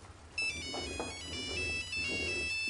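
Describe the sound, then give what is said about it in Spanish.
A mobile phone ringtone plays as a bright, repeating electronic melody. It starts after a brief quiet moment and rings steadily and loudly to the end over a low hum, with no talking. “Zulema desconecta su móvil. ¿Tú tampoco lo coges?”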